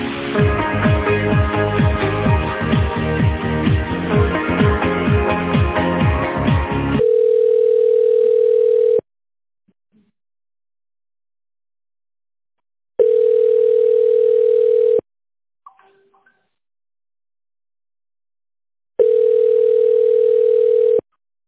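Telephone ringing tones sound as a call is transferred to a company's tender department: a stretch of music gives way to three long, steady tones of about two seconds each, evenly spaced with silent gaps between them.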